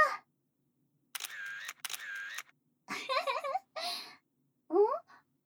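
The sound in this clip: A camera shutter clicking during a photo shoot: two quick mechanical snaps in close succession, set between stretches of a person talking, with the voice returning several times afterward.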